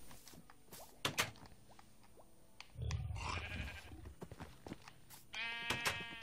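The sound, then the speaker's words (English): A sheep bleats in a video game: one wavering, harmonic bleat near the end, after scattered clicks, taps and a brief rustling burst. “If I put a sheep in there, let's grab a sheep, eh?”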